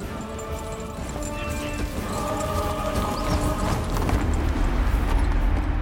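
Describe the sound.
Several horses gallop across a vast, flat expanse of sand, their hooves a dense, continuous rumble of thuds that grows slightly louder, mixed with sustained musical tones.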